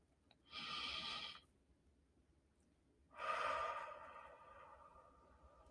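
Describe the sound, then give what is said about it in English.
A deep breath taken as a quick wellness exercise comes as two breathy rushes of air separated by a pause. The second is longer and fades out slowly, and both are heard alone. “So in this wellness quick fix, we're going to take a deep breath.”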